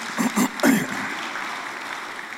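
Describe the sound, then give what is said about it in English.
Audience clapping for a performer's wife after she is introduced. A voice is heard briefly at the start, then a steady, even patter of many hands continues through to the end. “I don't know what you're clapping for.”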